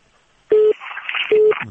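Two short, steady beeps of a telephone disconnect tone as a phone call is cut off. Crackly, hissy line noise sits between them, and a faint trace follows the second beep.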